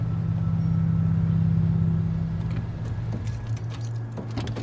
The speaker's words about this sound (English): Later, Wyatt's red pickup truck pulls up to a cemetery.